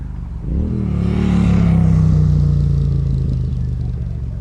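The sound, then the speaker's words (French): A carburetted four-stroke engine decelerates with the throttle closed, drawing air without fuel. A loud, rumbling drone swells in after a moment, then its tone slowly settles lower while the engine keeps running strongly to the end. “Alors on entend la décélération. Là. Là, c'est vraiment quand on coupe les gaz et qu'on aspire de l'air sans carburant.”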